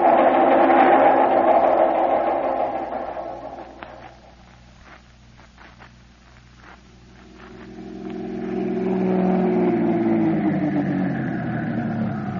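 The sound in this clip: A black sedan's engine as the car drives up and pulls in: a loud engine hum fades to a low idle with a few light clicks, then swells again into a strong, steady drone.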